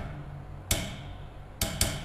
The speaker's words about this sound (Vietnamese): tôi kiếm cái gì tôi gõ, tạo thành âm thanh cho các ông nghe. Ví dụ gõ lên cái thành này